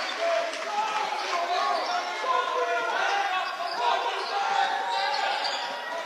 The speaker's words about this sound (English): Sager trying to facilitate the offense. Picks up his dribble.